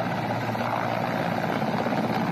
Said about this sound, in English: Helicopters have arrived at the scene. They've been evacuating the injured to healthcare centers in other parts of the country.